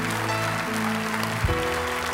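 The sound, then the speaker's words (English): A church audience applauds, a steady wash of clapping over sustained low musical chords that shift twice. “Jesus, I want you to hear the applause of the people around you who are already members of the household of faith welcome you home into the family of God. Come on, let them hear it.”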